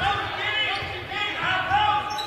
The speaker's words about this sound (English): Patriots' Marshall Ashley dribbles around on the far side.